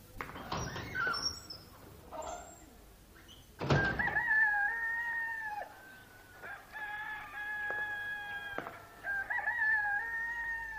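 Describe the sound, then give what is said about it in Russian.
Roosters crowing: a few drawn-out, harmonic cock-a-doodle-doo calls rise and hold in turn. The faint calls sound alone after some scattered clatter at the start. “Сюда лишь идет петухов эстафета. Вращение земли сопровождается криком ликующих птиц”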